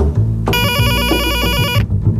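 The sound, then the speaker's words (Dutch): An electric doorbell ringing at a front door: a single bright, buzzing, rapidly trilling ring that lasts over a second above a low background rumble. “Onder dat adagium belt Jugokrant aan bij schrijver Annemarieke Samson.”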